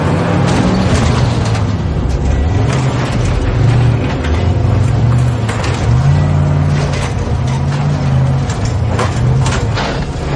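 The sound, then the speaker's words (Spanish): A truck with a partly lead-lined cab turns around at the chained gates of a nuclear power plant. Its engine gives a loud, continuous low rumble with wavering pitch throughout, alone with no voices. “El camión da media vuelta.”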